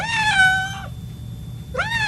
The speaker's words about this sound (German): Und wie macht die Katze?